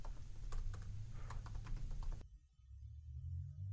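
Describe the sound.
Quick keystrokes on a computer keyboard, a rapid run of many clicks over a steady low hum for about two seconds, then the typing stops and only the hum remains.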